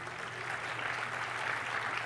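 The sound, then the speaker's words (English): An audience applauds a live developer demo of a Mac app. The applause is a faint, even hiss of many hands clapping that holds steady without breaks. “Applause now.”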